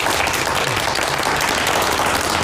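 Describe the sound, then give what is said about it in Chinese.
Applause from a group at a prison staff meeting: dense, continuous clapping that holds at an even, fairly loud level throughout, with no talk over it. “我替你鼓掌。 鼓掌！”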